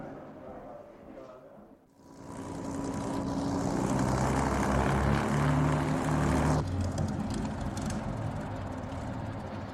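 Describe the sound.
A North Star propeller aircraft arriving from Montreal at an airport gate on the tarmac gives a loud droning roar that swells in after a quiet start, then holds steady and eases slightly near the end.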